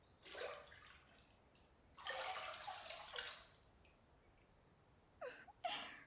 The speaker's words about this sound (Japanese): 髪の方も顔を洗う感じでお水をかけてみてください。